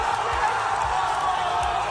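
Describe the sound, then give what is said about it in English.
A crowd gathered at the dock in Canberra roars while celebrating a Socceroos football result. The sound is a dense, steady wash of cheering voices with a few low thumps underneath. “A huge congratulations to the Socceroos. What an absolute vibe it was yesterday around Canberra, around Australia. This is a little snippet of what was going on at the dock.”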